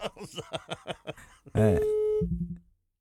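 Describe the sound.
A phone line tone sounds after the caller hangs up: talking comes first, then a steady, loud electronic tone holds briefly before dropping to a shorter, lower tone and giving way to silence.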